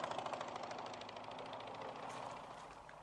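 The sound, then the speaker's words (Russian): A police motorcycle comes out of a side lane and rides on. Its engine gives a faint, steady drone with a rapid pulsing beat that stays fairly even in level. “Из соседнего переулка выезжает полицейский на мотоцикле. Не заметив ничего подозрительного, едет дальше.”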